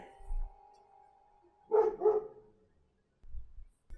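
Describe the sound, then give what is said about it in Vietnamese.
A pack of dogs barks loudly. A couple of quick barks stand out in the middle, fairly faint overall, among low rumbling sounds. “Đáp lại tiếng gọi của ông bà, chỉ có bầy chó thi nhau sủa inh ỏi. Một nhà nào đó thấy chó cắn kinh quá thì thét vọng ra.”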